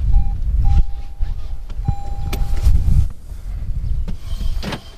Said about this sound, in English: he rides off in his Prius